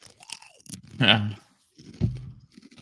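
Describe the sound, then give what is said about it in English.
Crunching from a ribbon-cut yam snack being bitten and chewed: a few loud, crisp bursts of crackle separated by quieter pauses. “Fucking crunching.”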